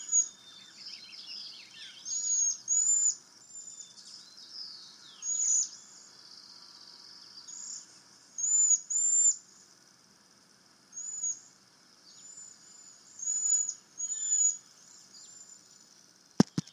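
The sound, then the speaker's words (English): Cedar waxwings give very high, thin calls in a front yard, coming in many short bursts separated by quiet gaps, fairly faint and with no talk. “So that was the sound of a cedar waxwing”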